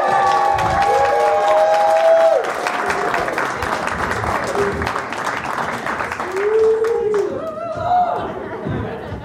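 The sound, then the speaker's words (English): Studio audience at a live comedy show applauding and cheering for a comedian. Dense, sustained clapping is peppered with whoops, eases after the first two seconds, then swells again. “In the meantime, please make some noise and enjoy some comedy from our good friend, Matt Kirshen, everybody.”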